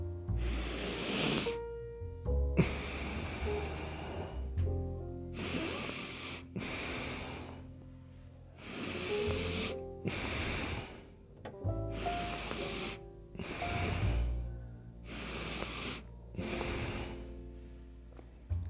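A quick breathing exercise: repeated cycles of an immediate inhale followed by a forceful, hissing exhale, each separated by a short pause, over faint sustained musical tones.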